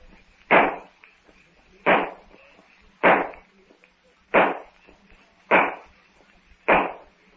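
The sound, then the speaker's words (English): Six sharp gunshots fired to signal others, evenly spaced about a second and a half apart, each a loud crack with a short fading tail and near quiet in between. “If I can only reach that gun to signal to the others. The gun!”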